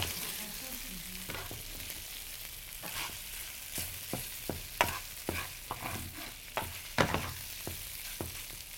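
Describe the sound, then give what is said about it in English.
A metal utensil stirs and scrapes food in a stainless steel frying pan over a soft, steady sizzle. Short, sharp scraping strokes come irregularly at first, then more often in the second half, all fairly faint. “Nothing, you don't risk scraping anything off. I'll use metal on metal, which I wouldn't use on a Teflon pan at home.”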